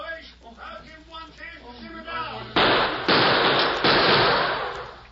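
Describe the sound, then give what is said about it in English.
Gunfire sound effect in an old western radio drama: a voice talks at first, then three loud, harsh bursts crack out in quick succession, each leaving a sustained noisy roar. “Hold that gunfire in there!”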